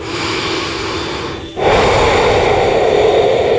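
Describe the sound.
A deep breath taken alone with no talk: a steady airy draw of air, a brief pause, then a louder, fuller rush of breath to the end.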